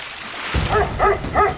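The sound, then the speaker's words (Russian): A dog by a river barks at a boat. It gives three short, high, yappy barks evenly spaced over a low background rumble. “Нет, он на лодку лает.”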